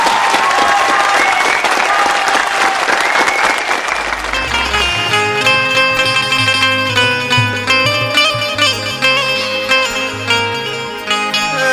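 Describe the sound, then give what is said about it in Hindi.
Loud, dense audience applause welcomes a singer on stage. The steady clapping continues throughout, and instrumental music enters partway through and carries on beneath it. “एगो हम कहब कि जोरदार ताली से स्वागत करी”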